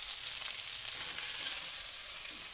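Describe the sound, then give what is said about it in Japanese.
Skin-side meat pan-fries in oil until crisp, giving a steady, even sizzle that holds at the same low level throughout, with no voices. “皮目がカリッと焼き上がったらひっくり返して両面を焼いて余分な油を拭き取っておきましょう。”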